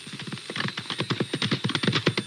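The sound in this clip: Rapid, steady clip-clopping of a small horse's hooves, with many even beats running through the whole clip over a low continuous hum.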